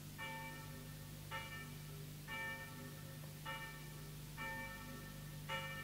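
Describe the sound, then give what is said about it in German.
A church bell tolls six evenly spaced strokes. Each stroke rings out with a bright, layered tone that slowly fades, over a steady low hum. “Die Glocke tönt und meine Schafe warten.”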